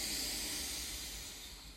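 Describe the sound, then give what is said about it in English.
A deep inhale through the nose during walking guided breathwork, heard as a long, breathy hiss that holds steady and then eases slightly toward the end, quiet and alone. “Actually take that big inhale through the nose.”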